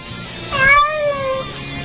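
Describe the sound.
One drawn-out cat meow of moderate loudness sounds over steady background hiss, rising slightly in pitch and then easing down before it fades.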